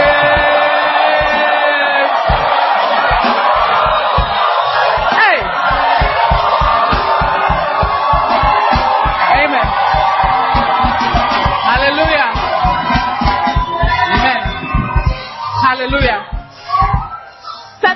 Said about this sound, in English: Oh, give the Lord a mighty clap offering. And why don't you add a shout of praise?